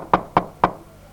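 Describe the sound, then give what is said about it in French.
Three sharp, evenly spaced knocks on a door, each a short dull thud, followed by quiet. “le Hadji venait à peine de prendre la route que les 7 filles entendirent toquer à la porte.”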